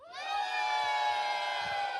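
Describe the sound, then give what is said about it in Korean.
An audience at a live event cheering and shouting on cue, a loud, sustained mass of high voices that swells over the first quarter second and then holds steady to the end. “why don't we hear a little bit from our boosters here? 네. 여러분, 소리 질러!”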